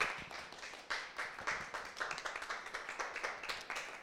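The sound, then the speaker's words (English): An audience clapping to welcome guests: a quiet patter of many separate hand claps in a loose, uneven rhythm that continues throughout, with no voices over it. “if you put your hands together and welcome Queer Cultures to Modern Mystic”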